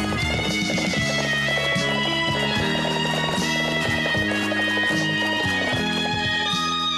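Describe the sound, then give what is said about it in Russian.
Rhythmic hoofbeats of several horses galloping along a shore, with a carriage travelling alongside. The pounding is continuous and steady throughout. “Гардемарина скачет на лошадях по берегу.”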